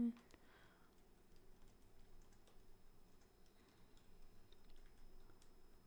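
Faint, irregular clicking of keys being typed on a computer keyboard, soft and quick over a quiet background.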